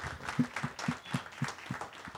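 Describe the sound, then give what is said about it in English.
An audience at an event claps in a thin, rhythmic patter of applause, with evenly spaced claps standing out over a faint background of scattered hand noise. “So please give them a big round of applause to the leadership team at Xbox.”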